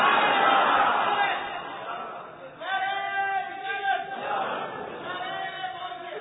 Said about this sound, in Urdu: تقریر جاری ہے 220 کی اسپیڈ کی اور تم نعرہ لگا رہے ہو صرف 10 کی اسپیڈ کی